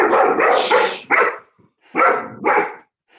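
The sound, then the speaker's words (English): Loud, sharp barking from an alert dog: a quick run of barks, then a few separate barks with short pauses between them. “He's my alert dog. Stop it.”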